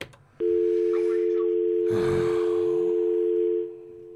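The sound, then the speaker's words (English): A steady telephone line tone sounds continuously for about three seconds on a phone call, with a brief breathy noise midway, then drops away, with no pulses heard. “But wait, how do you have a busy signal? That's not even possible these days. Is it a landline?”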